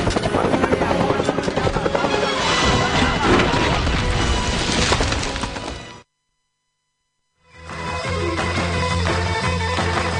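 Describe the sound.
Helicopter in a film scene: a loud, dense roar mixed with crashing impacts and thuds, cut off by a brief silence before the heavy, continuous noise resumes.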